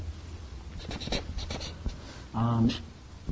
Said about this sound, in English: I'll write that down.